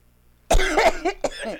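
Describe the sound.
Someone choking breaks into a coughing fit: a few harsh, raspy, loud coughs burst out after a quiet start and run close together to the end.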